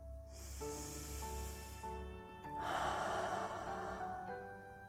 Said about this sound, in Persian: موافقید که قبل از خوندن کتاب با هم یه نفس عمیق بکشیم؟ 1، 2، 3.